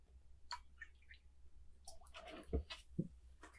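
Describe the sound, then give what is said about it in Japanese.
Tea being poured and milk added: faint liquid trickling with a few soft knocks, quiet throughout and without talk. “こうやって紅茶を注いで牛乳を入れて”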